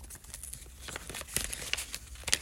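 Paper crinkles and rips as an envelope of Panini trading cards is torn open, a busy stretch of many quick, crackly tears and rustles at a fairly low level with no talk.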